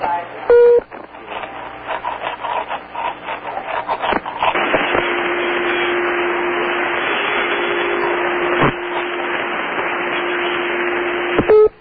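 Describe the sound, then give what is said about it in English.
Telephone circuit-busy tone on a call placed to Tehran: a steady low tone holds for several seconds over constant line hiss, preceded by a few clicks and crackles. “we later find that was a circuit busy signal”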